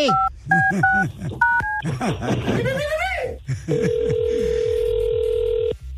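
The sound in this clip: A telephone number is dialed as a quick series of keypad beeps over music and voices, followed by a long steady ringing tone.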